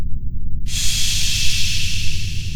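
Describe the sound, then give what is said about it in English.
A slow deep breath: after a brief quiet moment, a steady airy hiss begins and holds evenly to the end over a constant low rumble. “Go slow. Take a deep breath.”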